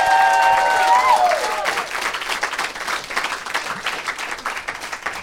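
Loud audience applause for the improv comedy team Dumbfounded after their show, a dense, continuous clatter of many hands clapping that eases slightly in level but keeps going throughout.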